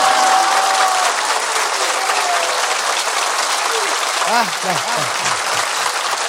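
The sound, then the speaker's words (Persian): Audience clapping at a celebration for the birth night of Imam Ali. The clapping is loud, dense and continuous, with voices singing over it toward the end. “پس همه کف زدن، دست ها سرخ شده یا که حنا بندان است.”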